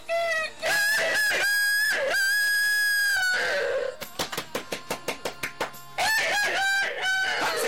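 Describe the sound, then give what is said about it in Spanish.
A rooster crows in long, loud, harmonic calls. Midway a quick series of short clucking pulses takes over, and then the crowing returns. “Se oye un gallo cantar.”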